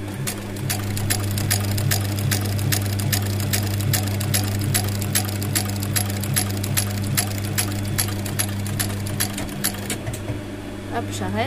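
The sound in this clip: Sewing machine stitching with its thread tension loosened slightly: a fast, steady run of many sharp mechanical ticks over a constant low motor hum, slowing and stopping near the end.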